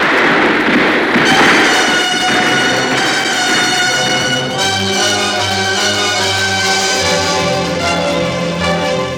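Gunfire volley in a battle scene of a radio drama: a dense, loud, continuous crackle of shots lasting several seconds.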